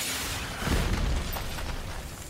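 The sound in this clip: A muffled, low boom from the test detonation of a nanomite warhead, swelling briefly in the middle of the short clip and then settling into a low, rumbling noise.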